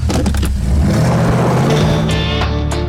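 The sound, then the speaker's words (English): A Camaro engine roaring as the car is driven very fast backwards in a political ad, a loud, unbroken car and engine noise that holds throughout. “If you go online, just look up Valerie Plame's political ad. She's driving a Camaro at 100,000 miles an hour backwards.”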